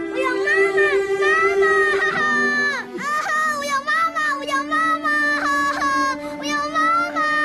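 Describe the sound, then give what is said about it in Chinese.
A young boy cries in a sustained, high-pitched wail, his voice wavering and breaking into sobbing pulses with only brief catches for breath. “小伟乖，不哭了啊，不哭了。”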